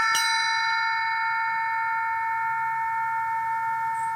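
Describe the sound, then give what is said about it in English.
Cowbell struck once, with a bright metallic hit followed by a long, steady ring of several clear overtones that sustains through the whole clip, with no talk. “I think this is a cowbell. This one had a great sound”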